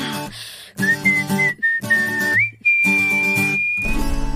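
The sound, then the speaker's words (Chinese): Whistled melody in a Mandarin pop song, with sustained clear notes that step up to a higher pitch partway through, over a band accompaniment that cuts out briefly in places. “一定要听到这个口哨音才圆满”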